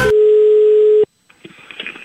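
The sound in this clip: A telephone line tone sounds as a call is placed: one steady, loud, mid-pitched beep lasting about a second, then a brief silence and faint shuffling noises.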